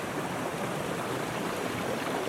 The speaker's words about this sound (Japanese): 川の水量は結構あります。